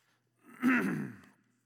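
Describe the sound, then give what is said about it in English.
A single cough, one short throaty burst with a sharp start that tails off within about a second, alone and without talk. “that cough out of the way. It makes people nervous anymore when you cough.”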